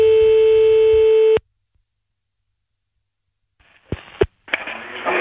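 A telephone line tone as a call is placed: a loud, steady continuous tone rings for about a second and a half, then cuts off abruptly into silence, followed by clicks and line noise.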